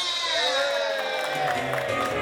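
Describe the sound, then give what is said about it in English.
An audience at a live stand-up comedy show cheers and applauds: a dense, sustained crowd roar with high whoops and shouts riding on top, loud and even across the brief stretch. “Everybody, give my partner a round of applause.”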